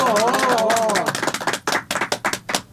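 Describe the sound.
Hand clapping breaks out at a poetry gathering as a poet is called to the stage. A voice is heard briefly first, then a handful of sparse, uneven claps ring out sharply on their own.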